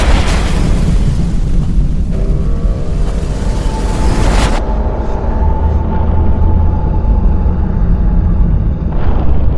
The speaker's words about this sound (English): At which point this launch vehicle explodes spectacularly on the launch pad.